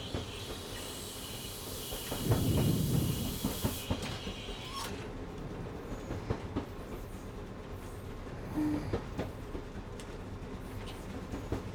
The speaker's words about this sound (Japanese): 蒸気たちの煙の奏でるブラスト音とドラフト音が、動輪が線路の継ぎ目をリズミカルに叩くジョイント音が、